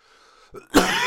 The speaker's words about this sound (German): ihr müsst entschuldigen, ich habe immer noch extrem Husten.